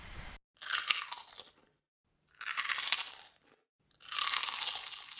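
Crunching on a crispy fried corn pie-shaped snack: three loud, dense bursts of brittle crackling chews separated by short silent gaps, with no talk.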